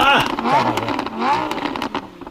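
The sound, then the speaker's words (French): A Maserati car engine revving hard, its loud rasping note climbing and dropping through a couple of surges of revs in quick succession. “Ah! On dirait un lance-flamme. Quelqu'un au 6-12-13 nous dit le McLaren. On n'est pas loin. Ferrari? On n'est pas loin. Ah, c'est un Maserati. Gros char.”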